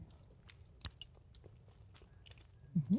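Quiet chewing of a Spätzle dish with a creamy sauce: soft, wet mouth sounds and a few small clicks, ending in a brief voiced murmur.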